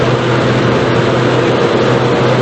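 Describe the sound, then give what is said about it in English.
Steady road and engine rumble from a car driving along the A57 motorway, a continuous even drone with broad hiss, loud throughout and with no talk. “I'm just on the final stretch on the A57 motorway.”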